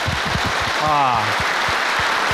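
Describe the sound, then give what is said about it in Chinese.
Scattered clapping from the studio audience of a Henan TV opera program, a few sharp separate claps with a brief voice rising over them midway. “把掌声送给自己啊！”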